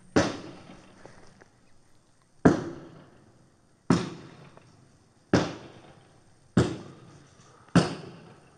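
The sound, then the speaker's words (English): Gunshots from a long gun fired out through a vehicle's rear window: six sharp, loud cracks at irregular intervals roughly one to two seconds apart, each trailing off in a brief decaying rumble. “Appears female has a long gun pointed toward me. I have to hold my cover. Stand by.”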